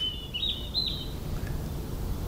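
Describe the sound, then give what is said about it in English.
Birds singing outdoors: a brief run of high chirps and twitters in the first second, then one faint note, quiet over a steady low background hiss and rumble, with no talk. “get the recorder and record the birds again. And yeah, that's what I did. And it's lovely.”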